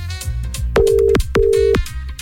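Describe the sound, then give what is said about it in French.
Two steady telephone ringback tones sound over background music as an outgoing call is placed to give away tickets; each tone lasts under half a second, with a short gap between them. “Allez, c'est parti, on appelle.”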